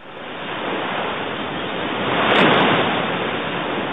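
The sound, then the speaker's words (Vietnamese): Distant rumbling roar of the night tide coming in on the Qiantang River, a dense, continuous wash of water noise that swells to a louder surge midway and then eases slightly, with no voices. “Nghe có tiếng sấm ầm ì xa xa, ấy là thủy triều ban đêm trên sông Tiền Đường sắp tới.”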